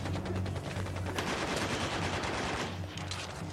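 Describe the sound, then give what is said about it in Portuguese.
Gunfire in a video game, part of a chase involving a boat, rings out as a loud, dense, continuous barrage of rapid shots that keeps going for the whole clip with hardly a pause. “Belo tiro no chão, parça.”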